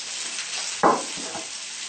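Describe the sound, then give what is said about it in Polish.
Bean cutlets frying in a pan on a gas stove give a steady, moderate sizzle throughout, with one brief louder burst of crackle partway through. “Jak się usmażą, będzie druga porcja włożona. Usmażone kotlety z fasoli przekładamy na talerz i wyłączamy gaz.”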